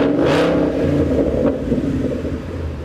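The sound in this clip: A Coyote V8 engine revs during downshifting, giving a deep, steady, continuous rumble throughout with a few brief brighter bursts.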